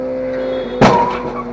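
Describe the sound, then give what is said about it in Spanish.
A motorcycle racing on a street in Australia slams into a car at a traffic light: a steady engine drone, then one sudden heavy impact that rings out and fades. “La primera moto logró pasar justo antes de que el semáforo cambiara a rojo, pero la segunda se estrelló de lleno contra este vehículo.”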